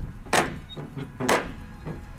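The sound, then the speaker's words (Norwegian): Knocking on a door with a big old brown metal ring knocker: two firm, heavy knocks about a second apart, with fainter thuds between and after them. “Nå skal jeg banke på.”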